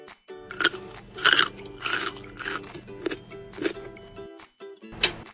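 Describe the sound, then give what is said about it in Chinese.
Crisp crunching of carrots being bitten and chewed, heard as a series of separate bursts with short pauses between them. No voices accompany it. “嗯，甜甜，如果你吃太多胡萝卜，会不舒服的。”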